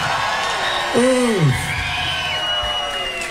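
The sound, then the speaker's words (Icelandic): A live concert crowd cheers for a band member as he is introduced, with a loud, sliding whoop standing out midway over a steady bed of crowd noise. “Þetta hægri hönd, Óskar Guðjónsson, gef honum gott klapp.”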